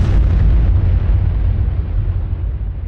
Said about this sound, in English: the Gadget exploded over the New Mexico desert, vaporizing the tower and turning the asphalt at the base of the tower into green sand